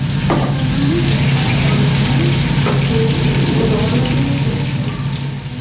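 Food fries in a kitchen where volunteers cook: a loud, dense, steady sizzle runs through the whole clip with no talk.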